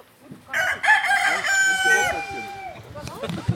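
A rooster crowing in a farmyard: one long, loud, harmonically rich crow that stretches over more than a second, followed by quieter background sounds.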